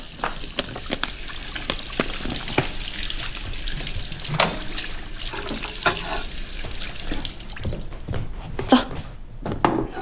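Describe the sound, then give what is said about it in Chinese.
Hands are washed under a running tap at home before a meal: a steady, hissing stream of water with irregular splashes and small bursts as hands move through it, continuous throughout. “不用多话，洗手去。 来，洗手。”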